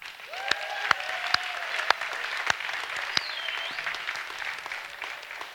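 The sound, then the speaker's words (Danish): An audience gives performers a big round of applause. The clapping is steady and dense throughout, fairly faint, with a few sharper individual claps standing out. “Prøv lige at give dem en kæmpe hånd.”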